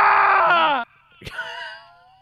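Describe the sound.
A played sound effect of screaming: a loud, high, strained scream that lasts under a second and cuts off abruptly, followed after a short gap by a softer, wavering, moan-like cry that fades away.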